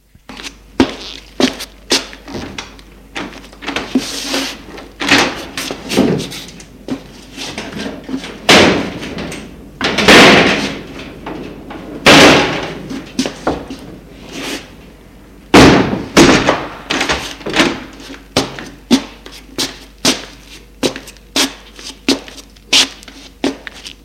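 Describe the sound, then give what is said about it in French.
Window shutters being opened in a large room furnished with 1950s furniture: many sharp clattering knocks and bangs in an irregular rhythm, some louder thuds standing out among lighter rattles. “Il ouvre les volets.”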